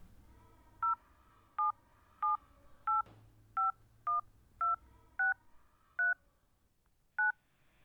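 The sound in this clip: Telephone keypad touch-tones as a number is dialed: ten short, clear two-tone beeps in a slightly uneven rhythm over a faint low background hum.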